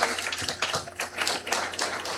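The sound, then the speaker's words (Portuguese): Applause for the authorities at a church gathering: faint clapping that swells and dips in uneven waves, with individual claps standing out now and then. “A todas as autoridades, a nossa gratidão com uma salva de palmas.”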